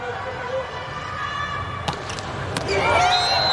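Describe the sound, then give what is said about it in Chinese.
A hard, aggressive volleyball serve during a match involving Brazil's team, with the ball landing just out: two sharp impact thumps close together, followed by rising arena noise and voices. “哇，这球出界了，但是很接近，这是攻击性很足的一个发球。”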